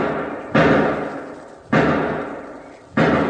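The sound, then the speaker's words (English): Gunshots fired in a shed: three loud, sharp reports spaced a little over a second apart, each followed by a long, slowly decaying tail. “Wait, 5 shots. Sounds like it's over in one of those sheds.”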